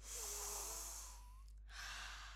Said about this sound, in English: in through your nose and out through your mouth. I'll count for us while we breathe.